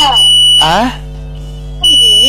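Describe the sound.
A steady, high-pitched electronic beep tone sounds on a phone line whenever a caller speaks. It runs continuously under the voice and persists through a short pause in the talk.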